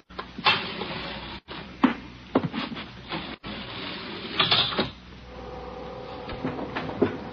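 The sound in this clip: An elevator runs with a series of mechanical clunks, rattles and ratcheting knocks, settling into a steadier whirring hum in the later part.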